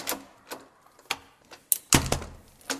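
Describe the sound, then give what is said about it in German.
A classroom window is pulled shut, producing a string of wooden knocks and thuds of varying loudness. A heavier clunk lands near the middle, followed by a few sharper knocks. “Wenn man ein Fenster schließt, hört es sich so an.”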